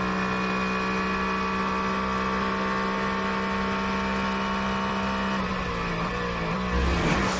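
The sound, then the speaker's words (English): GT race car engine droning past a BMW during a race, a steady harmonic whine with a brief swell of engine noise near the end. “It's the Broadcom competition for GT going past the BMW.”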